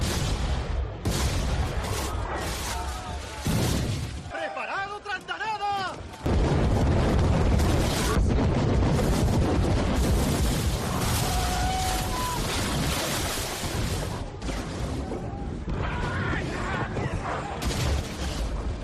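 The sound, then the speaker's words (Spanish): Cannon fire in a dramatized naval battle between galleys of a Spanish fleet and pirates: loud, booming blasts over continuous roaring battle noise, with a brief quieter lull before the din returns at full strength. “La galera que comandaba la flota española, la Capitana, entabló combate con un segundo barco. Creían que iba a ser otra vez pan comido, pero se equivocaban. ¡Atención, artilleros! ¡Abrid fuego!”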